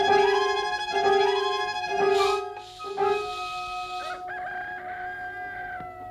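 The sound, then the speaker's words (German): Rooster crowing and chickens calling: several loud, drawn-out, harmonic-rich calls follow one another with short gaps, with no talk over them. “Mir gefallen die Hühner nicht”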